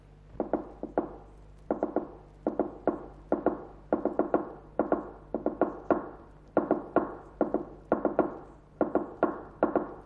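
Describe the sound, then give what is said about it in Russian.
A fork taps on a table to imitate a telegraph machine: many sharp clicks in quick clusters of two to four, separated by short pauses in an uneven, Morse-like rhythm. “Дядь стучит вилкой по столу, подражая телеграфному станку.”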